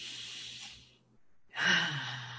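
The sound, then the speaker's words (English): Deep breath: two long, breathy rushes of air separated by a short pause. “Yeah, I take another deep breath.”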